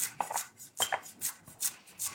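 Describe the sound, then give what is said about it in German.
Spring onions are chopped with a knife on a board, making a series of quiet, crisp taps in an uneven rhythm. Some cuts come in quick pairs, with short pauses between, and no one speaks. “Die Frühlingszwiebeln erstmal schneiden.”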